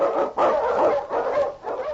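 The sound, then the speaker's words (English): A husky Eskimo lead dog barks and yelps on a snowy trail in a storm. A few rough, sustained barks run close together, loud and forceful, with short gaps between them. “The Wonder Dog King, swiftest and strongest of Eskimo lead dogs, blazes the trail through storm and snow for Sergeant Weston”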